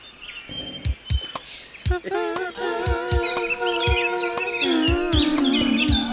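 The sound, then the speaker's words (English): Dozens of bird-sound recordings play at once, chirps, whistles and trills piling into a thick tangle after the first two seconds, with sharp clicks scattered throughout. “I opened up like 30. I can't do it. It's too many birds. It's too many birds. I'm trying to close them all down.”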